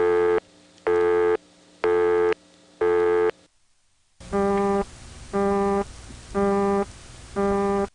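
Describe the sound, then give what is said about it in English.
Two distinct exotic telephone busy signals on the 670 prefix: first a buzzy, harmonic-rich tone pulsed four times with silent gaps, then, after a short pause, a different tone pulsed four times over a steady low hum. “There was not one, but two exotic busy signals in the 670 prefix.”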